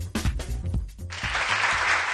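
Applause for a university award given to a study of alcohol use and self-esteem among young students, a dense, even clatter of many hands that starts about a second in, after a short tonal sound, and runs to the end.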